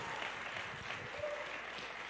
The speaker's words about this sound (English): Yeah, you can put your hands together. Come on, it's all right.